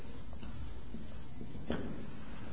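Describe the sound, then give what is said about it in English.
Faint handwriting, a soft, steady scratching of a writing tool that runs continuously at low level, with one slightly firmer stroke toward the end. “Man, I write so well.”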